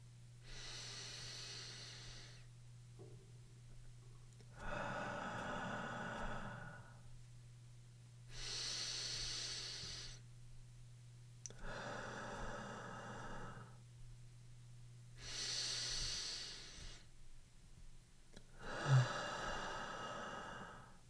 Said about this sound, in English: 3 seconds for the movement of the air in, and 3 seconds for the movement of the air out. You can breathe along with me.